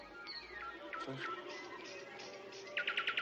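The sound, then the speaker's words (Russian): Nightingale singing at dusk by a river: short chirps and whistled notes, then a quick run of repeated bright pulses near the end, over a steady low background hiss. “Слышь? Соловей.”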